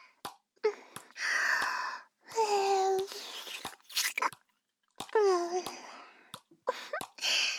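Wet licking and mouth sounds: short smacking clicks and slurps come in several bursts, mixed with soft voiced murmurs and breathy moans between them.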